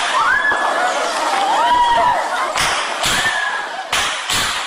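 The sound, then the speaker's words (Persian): Students scream during the armed attack on Kabul University, their high, wavering cries rising and falling loudly, broken by sharp noisy bursts near the end. “این آن صدای فریادهای دانشجویان است که در جریان حمله به پوهنتون کابل ثبت شده است.”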